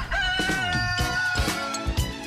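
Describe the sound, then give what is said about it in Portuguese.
A rooster crows in one loud, drawn-out call, bright and rich in harmonics, heard alone without talk. “Rodrigo Marini, acordando o galo Policarpo.”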